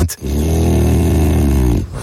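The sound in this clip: A dog gives a deep, rumbling growl that starts abruptly after a short gap, holds loud and steady for nearly two seconds, then breaks off.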